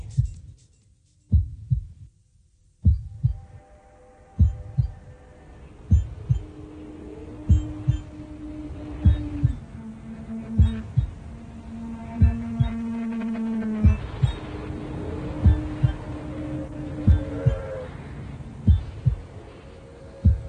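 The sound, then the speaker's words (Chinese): Heartbeat sound effect used in a song: steady, regularly spaced low thumps repeat throughout, each paired like a pulse, beneath soft sustained musical tones that gradually fill in. No voices. “今次佢都有用音效。佢用心跳声”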